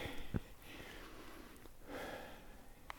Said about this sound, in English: You can hear us breathing, it's uphill.